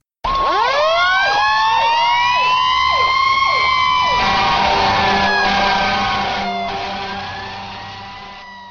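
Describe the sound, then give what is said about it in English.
A fire engine siren wails loudly, first sweeping up in pitch, then holding a steady high wail before gradually fading toward the end. “When you hear those sirens, do you say to yourself, "Wish I could do that"?”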